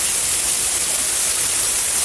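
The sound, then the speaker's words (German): Interactive water fountain jets splash in a dense, steady hiss of spraying water, loud and unbroken throughout with no talk. “Wenn ich jetzt dichter rangehe, dann gehen die Fontänen aus.”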